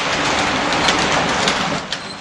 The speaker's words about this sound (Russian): Рано утром они сели на пригородный поезд, который и привез их через час к густому непроходимому лесу.